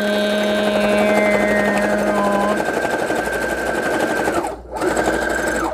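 A Brother sewing machine runs a number-four zigzag stitch through fabric for bookmarks, giving a loud, steady buzzing whine that shifts slightly in tone, drops out for a brief moment near the end, then resumes.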